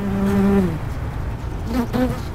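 Wasps buzz in two short bursts of droning, harmonic hum, the first longer and steadier, the second brief and wavering, with a faint background between them.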